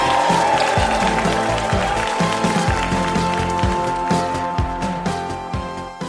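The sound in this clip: Loud, sustained audience applause and cheering for a guest on a live comedy quiz show, dense and steady throughout before easing slightly at the end.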